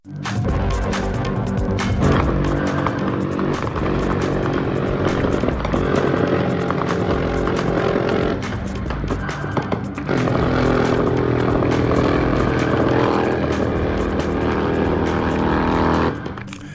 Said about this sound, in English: So if you're wondering what that was a helicopter gunship, minigun, firing massive bursts in Mexico